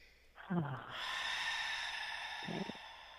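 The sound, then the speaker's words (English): Deep cleansing breath during a guided breathing exercise: one long, steady, airy breath with soft voiced sounds at its start and end. “let's just take a couple of nice deep breaths to complete that. One. And one more nice deep cleansing breath.”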